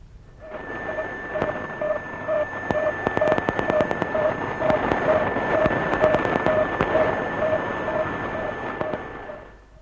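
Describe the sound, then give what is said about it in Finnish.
A new artificial satellite's radio signal: steady, evenly spaced mid-pitched beeps repeat throughout, under loud static hiss and crackling bursts, with a faint constant higher whistle tone. “Insinööri Jaakko Holopainen talletti tänään puolen päivän aikaan uuden tekokuun äänen, ja nyt voimme kuulla sen ja vertailla sitä edelliseen.”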